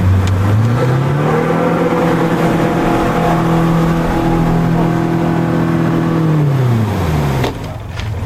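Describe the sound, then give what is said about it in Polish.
A 150-horsepower rescue motorboat engine roars at high speed in a loud, steady drone. Its pitch climbs at the start, holds through most of the run, then drops near the end as the noise eases. “Jak pan chce, to możemy się płynąć szybciej, bo wtedy będzie ryk silnika.”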